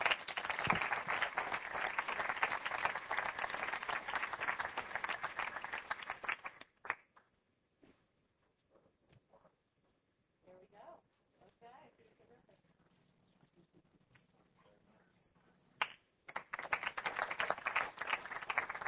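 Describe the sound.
Audience applause congratulating an award recipient at a green-building event: a dense burst of clapping that breaks off into a quiet stretch with faint scattered sounds, then loud clapping starts again near the end.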